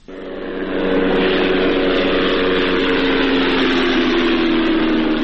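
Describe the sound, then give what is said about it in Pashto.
An unmanned drone flies over Ghazni, Afghanistan, giving a steady droning engine hum with a sustained low tone. It swells over the first second, then holds loud and level throughout, with no voices. “دا د هغه بی پیلوټ الوتکې غږ دی”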